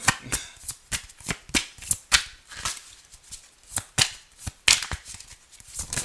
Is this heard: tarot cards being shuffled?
yes

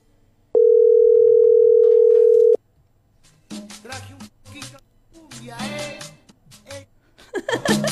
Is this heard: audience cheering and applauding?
no

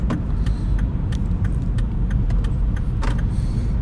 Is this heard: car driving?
yes

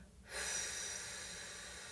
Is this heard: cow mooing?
no

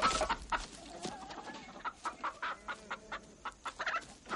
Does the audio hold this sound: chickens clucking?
yes

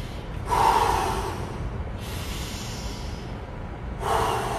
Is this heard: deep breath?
yes

